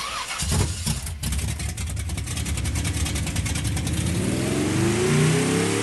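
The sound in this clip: Simulated engine revving from a phone app played in a quiet Toyota Prius hybrid: a loud, continuous synthetic roar that holds steady, then climbs in pitch near the end like an accelerating car.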